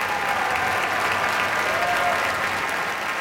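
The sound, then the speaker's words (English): A concert audience in the Koussevitzky Music Shed at Tanglewood applauds after a Boston Symphony Orchestra performance. The clapping is enthusiastic, dense and continuous, holding a steady loudness. “Some very enthusiastic reception from this audience here in the Kuzovitsky Music Shed.”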